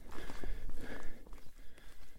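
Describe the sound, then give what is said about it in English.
Hikers' footsteps on a trail during a leisurely walk, soft, faint steps repeating steadily. “Sky's behind looking a bit grey, possibly threatening, but we are just sauntering. There's no great rush, with the aim to cover the last, probably about 7 or 8 kilometres”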